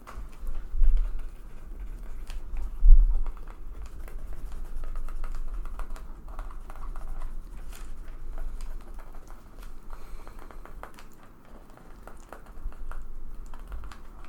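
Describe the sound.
Typing on a computer keyboard: many quick, irregular clicks that keep going for the whole stretch, at a moderate level with a few louder bursts and no voices.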